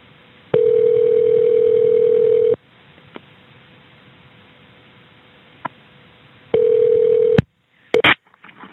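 Dial tone and dialing on a recorded emergency phone call. A steady hum lasts about two seconds, then a quiet, hissy line carries a few faint clicks. The tone returns briefly before short bursts of dialing beeps.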